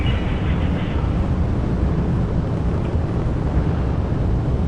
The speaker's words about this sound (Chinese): 现在长江七号遥十一火箭已经点火起飞，托举天舟十号升空